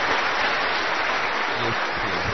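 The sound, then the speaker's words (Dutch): Dense, steady applause from a gathering honouring parents for their loving upbringing. The clapping is continuous throughout, with a few faint voices underneath. “Je mag wel even een applaus, hè?”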